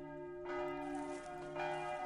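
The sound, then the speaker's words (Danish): Church bells ring out suddenly during harvest time, with two strong strikes about a second apart over a sustained, humming, harmonic resonance. “Pludselig så ringer klokkerne.”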